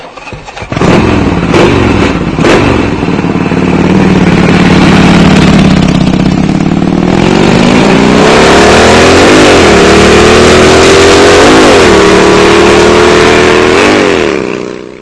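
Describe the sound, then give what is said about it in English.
Harley-Davidson motorcycle engine running loud and unbroken, its deep rumble climbing in pitch as the throttle opens, then surging through a few quick revs near the end. “Riding that Harley.”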